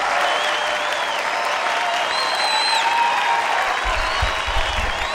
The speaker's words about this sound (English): And let's keep it going for our headliner. Let's give him a big laugh-a-teria welcome.